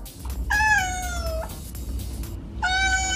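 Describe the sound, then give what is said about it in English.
Two drawn-out cat meows, the first long and gently falling in pitch, the second cut off at the end, set over a steady low background hum. “we are going to have cats meowing behind every one of our talk breaks today”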